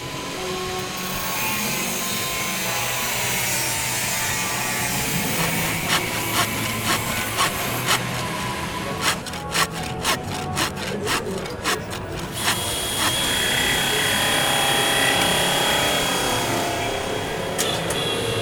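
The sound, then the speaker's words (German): Sawing wood during construction work setting up trade fair halls: a long stretch of steady rasping noise, with a burst of many quick, rhythmic saw strokes in the middle before the broad scraping continues. “Bevor eine Messe wie die IFA beginnen kann, müssen tausende Quadratmeter Messefläche aufgebaut und auf Hochglanz gebracht werden. Und so klingt die Zeit unmittelbar vor der Messe vor allem so.”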